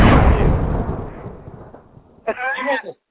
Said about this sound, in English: I just think that explosion sound. That's pretty funny.